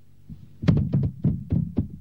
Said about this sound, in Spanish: Golpean la puerta de la humilde casa.